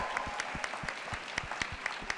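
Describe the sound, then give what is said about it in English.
Audience applause at a public event, a continuous, fairly faint patter of many hands with sharper individual claps popping out at an irregular pace. “Give him a round of applause, please.”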